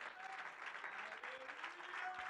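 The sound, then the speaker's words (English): A church audience claps hands in steady, dense applause at an even, moderate level for the whole stretch, with no break. “Oh, if you believe that, would you clap your hands to God?”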